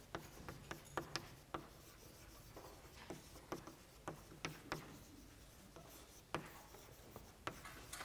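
Handwriting with a pen or marker, heard as faint scratchy strokes broken up by many light taps and clicks in an uneven rhythm, with no voices.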